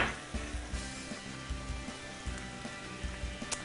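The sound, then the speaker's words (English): Cauliflower and other vegetables sauté in a pan for a Sicilian dish, giving a faint, steady sizzle with soft, regular knocks of stirring and no talking. “Okay, we're cooking now, sauteing that all together.”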